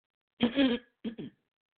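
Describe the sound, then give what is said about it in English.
A person with a raspy voice clears their throat, one longer rough burst followed by two short, quick clearings. “And I do apologize for all of the clearance that I'm bringing to my throat.”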